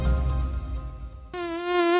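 Mosquitoes buzzing: a thin, droning whine rich in overtones, murky at first over a low rumble, then a clearer, brighter and louder steady buzz in the second half.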